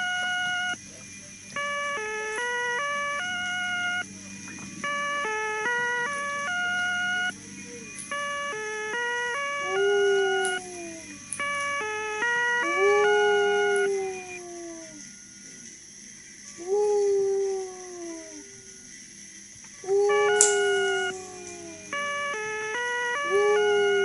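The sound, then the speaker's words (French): Wailing sirens: a repeated alternating two-tone hi-lo pattern gives way to several swooping wails that fall in pitch, all over a steady background hum. “Envoyez-nous quelques sirènes”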